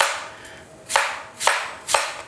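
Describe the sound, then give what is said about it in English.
A Japanese knife slices through apples and strikes the cutting surface in three crisp, evenly spaced knocks, each sharp and short against a quiet background. “Oh, your fancy knife. I love this fancy Japanese slice knife. Slice them for you.”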